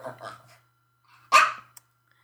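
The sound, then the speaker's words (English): A domestic dog gives one sharp, loud bark after a few moments of talk, followed by a short, faint click, then quiet. “Sorry about that little interruption. My dogs had to go out.”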